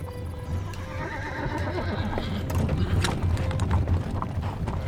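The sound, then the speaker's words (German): Hooves clip-clopping steadily as a horse-drawn carriage travels, with the creak and rattle of the carriage under a low rumble, growing slightly louder, and a horse neighing. “Bereits 6 Stunden sitzt Goethe in seinem Wagen nach Karlsbad.”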